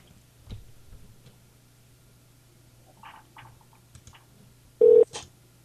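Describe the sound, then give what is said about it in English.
A telephone number being dialed: a few short, faint tones with light ticks, then one louder, sustained beep near the end. “We just called Corey Haim.”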